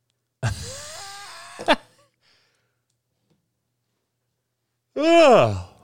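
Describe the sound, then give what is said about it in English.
A person's drawn-out yawn, a voiced, groaning exhale lasting just over a second. After a silent pause, another short voiced moan-like sound follows. “Sorry about the yawn.”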